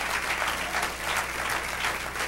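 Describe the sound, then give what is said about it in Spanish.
Applause during a church service, offered to the Lord: an audience claps in a steady, dense patter that stays fairly soft and even throughout, with no pauses. “Un aplauso al Señor.”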